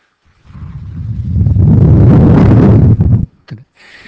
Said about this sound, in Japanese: 突然の突風が吹き飛ぶような音でしたね。